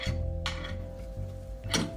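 A few light clinks of utensils against dishes as pieces of food are served into a bowl, sounding over a low, steady kitchen hum.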